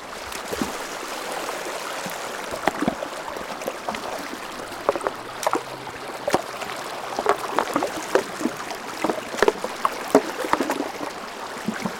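Water flows through a freshly opened breach, a steady rushing wash broken by many small splashes and clicks at a moderate, even level with no voices.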